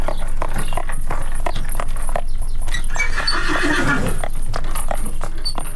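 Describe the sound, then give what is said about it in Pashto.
Horse hooves clip-clop on a street, as heard from carriages in the narrow lanes of old European cities. The sharp hoof knocks come in a quick rhythm, and a horse whinnies partway through. “د آس د نالونو ټک ټک سړی پخوانیو وختونو ته بیایي”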